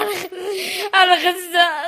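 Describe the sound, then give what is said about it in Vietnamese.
A young war-injured girl receiving treatment bursts into tears, with high, wavering wails and sobbing cries broken by short catches of breath. “bật khóc”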